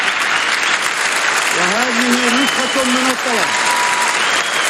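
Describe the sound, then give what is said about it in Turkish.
Standing ovation in the UN General Assembly hall for Mahmoud Abbas: a dense, steady wash of clapping fills the whole clip, and a voice speaks briefly over it midway. “Abbas'ın mektubu havaya kaldırdığı o anlarda salonda büyük bir ayakta alkış tufanı koptu.”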